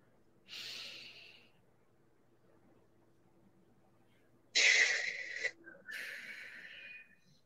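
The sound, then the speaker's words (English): Slow, deep breathing during a guided breathing exercise. A soft, airy inhale is followed by a quiet hold of a few seconds, then a longer, louder breathy exhale in two pushes, with no talking. “let's all just breathe in for four counts, hold for four, and then let it out”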